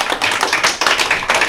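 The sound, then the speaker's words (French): Audience applause for two primary-school pupils at a school quiz game: dense, loud, continuous clapping with an even, busy patter throughout the short stretch. “Applaudissez-les s'il vous plaît.”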